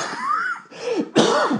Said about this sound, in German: Ich wollte den Husten noch zurückhalten.